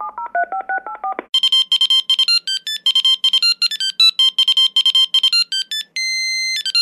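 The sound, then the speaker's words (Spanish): Keypad tones sound as a number is dialed on a mobile phone. A lower, sliding run of tones gives way to many rapid, high beeps in an uneven rhythm, ending in a longer steady tone. “Sacó su móvil y se puso a marcar.”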